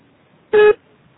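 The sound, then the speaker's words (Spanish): A single voicemail beep sounds: one short, steady, mid-pitched electronic tone lasting about a quarter second in near silence. “Deja tu mensaje después del beep.”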